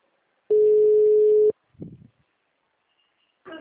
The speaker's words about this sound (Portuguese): A ligação caiu